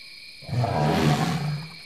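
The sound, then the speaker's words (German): An elephant lets out a single low, rough roar that swells and fades over about a second and a half, heard alone. “Dort drüben, der Elefant.”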